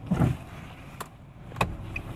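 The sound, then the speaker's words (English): Street traffic outside a parking garage near a bus station: a low, continuous vehicle rumble with a couple of sharp clanks and a brief high squeak near the end. “there's plenty of noise to be heard from outside the parking garage. As I am near a bus station,”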